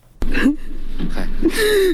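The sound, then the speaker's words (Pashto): An elderly father wails and cries in grief over his three sons killed in Nangarhar province, Afghanistan: a sharp gasp, then strained, high-pitched sobbing that ends in a long, drawn-out wail. “دا د هغه سپینجری پلار ژړا او فریاد دی چې تیرونه یې په ننګرهار ولایت کې درې زامن ناڅرګنده وسلوالو ووژل.”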